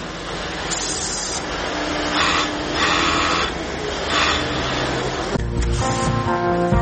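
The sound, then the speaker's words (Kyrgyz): Sewing machines whir in a busy Bishkek sewing workshop, a continuous mechanical hum broken by several short, brighter bursts of stitching, with a steady tonal hum near the end. “Бишкектеги катардагы тигүү цехи. Иш жайбаракат өз нугунда жүрүүдө.”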